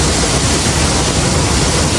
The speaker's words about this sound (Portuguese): A força da água provocou alagamento, carregou lama e atingiu esta academia. Imagens registradas por moradores mostram a força da água após o rompimento.